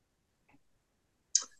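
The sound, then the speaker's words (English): A single short, sharp throat clear from a throat full of phlegm, preceded by a faint brief sound, then quiet. “excuse me, everybody. My throat is still full of phlegm.”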